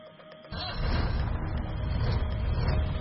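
A police jeep pulls away: after a quiet start, a low engine rumble kicks in abruptly and holds steady and loud as the vehicle drives off.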